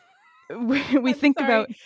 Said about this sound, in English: I'm really sorry if you hear bumping and or purring, but this does get her to stop meowing.